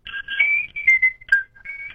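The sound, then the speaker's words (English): Whistled melody of a classic TV theme song: a clear, bright tune of held and gliding notes in a bouncy, steady rhythm, heard alone without talk. “Now, the most iconic whistling song I'm going to play for you here.”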